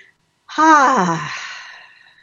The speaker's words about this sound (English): So let's just take a nice deep breath.